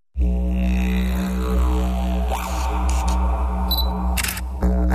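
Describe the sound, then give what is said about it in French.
Camera shutter clicking, a few brief, sharp snaps over a steady musical backing. “Sortez votre appareil photo ou votre smartphone et faites-nous voyager.”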